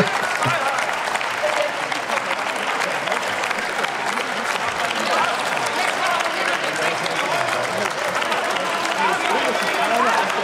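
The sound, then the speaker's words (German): Applause in the German Bundestag, a dense, steady roar of clapping that holds at an even loudness for the whole stretch, with voices mixed into it. “Scheiße, jetzt kriege ich ja noch von der falschen Seite Beifall.”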